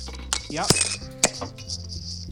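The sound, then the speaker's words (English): A bottle of rum is opened beside a drinking glass, with a few sharp glassy clinks and brief ringing tones between quieter handling noises. “So let's crack this bottle of rum, shall we?”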